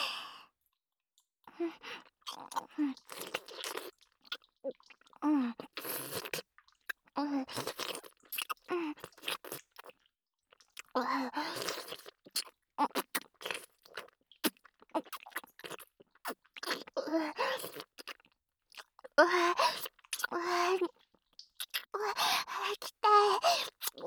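Ramen being eaten, with many irregular wet chewing and crunchy mouth sounds coming in short bursts, mixed with breathy sighs and low murmured vocal sounds between the bites.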